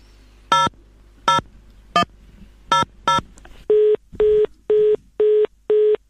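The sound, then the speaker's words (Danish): Touch-tone dialing on a telephone: a quick run of keypad tones with uneven gaps, then a steady series of identical, evenly spaced electronic beeps as the call goes out. No one speaks. “Men så skal vi lige prøve at give Jesper Winge Leisner et kald også lige til sidst måske”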